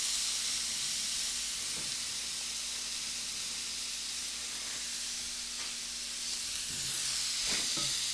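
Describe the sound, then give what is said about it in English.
Bell pepper and half a bag of shredded matchstick carrots sizzle in a stir-fry pan, a steady bright hiss over a low hum that runs throughout, with a few soft knocks near the end. “So I'm putting in a bell pepper. And I'm putting in shredded matchstick carrots. It's about 1/2 a bag.”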